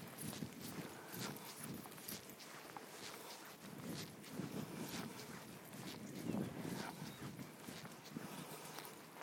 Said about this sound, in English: You walked over a manhole cover. He always slows down for that.